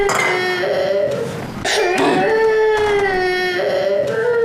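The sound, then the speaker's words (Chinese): A baby crying, loud sustained wails with strong harmonic tones that break off briefly midway and then resume in long, drawn-out cries. “哎呀，哎呀，行了行了，你要别哭了。”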